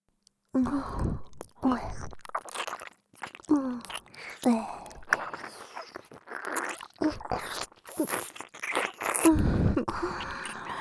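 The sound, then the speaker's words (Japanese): Eating and chewing sounds: many irregular wet smacks and crunchy bites, with soft breathy sighs mixed in between them, moderately loud and close. “それどころか、すっごく気持ちよく、おいしく食べて差し上げますわ。 それでは、いただきます。”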